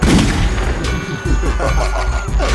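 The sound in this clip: A shotgun blast sound effect opens with a loud, booming burst, followed by many sharp cracks and thuds in quick succession.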